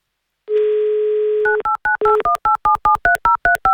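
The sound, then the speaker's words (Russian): A telephone dial tone holds steady for about a second, then a rapid, even run of short two-tone keypad beeps dials a call. “Все, меньше слов. Звоню.”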